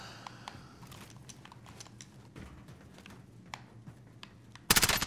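Gunfire in a shooting video game crackles as a string of sharp, quiet shots at irregular intervals, ending in a louder, dense burst of rapid fire.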